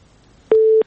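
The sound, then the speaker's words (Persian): A telephone busy tone sounds after a listener's phone call is cut off. It is a single short, steady low beep, loud and alone against near silence. “فکر کوم لدی اوریدونکو سره مو تماس قطع شوی دی.”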